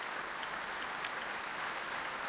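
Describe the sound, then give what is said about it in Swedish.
Applause from an audience in a concert hall for a symphony orchestra after a performance. Dense, steady clapping continues evenly throughout at a moderate level, with no voices rising above it. “Och här i Berwaldhallen applåderas nu Sveriges Radio Symfoniorkester kväll under ledning av den brittiske dirigenten Nicholas Cullen.”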